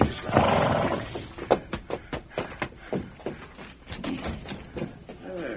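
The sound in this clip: A horse, Scout, the mount of Tonto in a Lone Ranger western tale, whinnies and snorts while a man speaks to steady it, and a high, wavering neigh rises clearly near the end.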